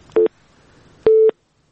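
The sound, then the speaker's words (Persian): Busy tone after a phone call is cut off: two steady low electronic beeps, the first short and the second about twice as long, separated by faint hiss, with no voices. “بلی متاسفانه تماس اینا قطع شد”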